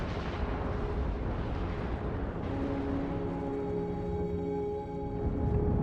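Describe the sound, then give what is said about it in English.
Deep, roaring rumble from a planet-sized body plowing into Earth, a loud, continuous blast that holds steady throughout, with low booming texture and faint sustained tones running underneath. “With the force of a billion trillion tons, Theia plows into the Earth.”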